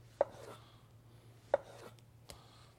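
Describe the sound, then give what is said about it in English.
A knife cuts through an orange into slices for a cocktail garnish: three crisp chopping strokes on a board, the last one fainter, spaced out over a low, steady hum. “I'm going to take some orange. Just going to give this some slices.”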